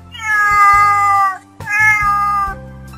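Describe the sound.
Two drawn-out, loud cat meows, the first longer than the second, separated by a short pause.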